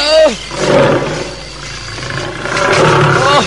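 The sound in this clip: A tiger roars as it pounces: a loud, harsh, growling roar that swells, eases and then builds again toward the end, filling the whole few seconds.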